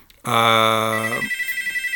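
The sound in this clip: A telephone rings with a loud electronic tone held for about a second. It then breaks into a rapid, pulsing trill.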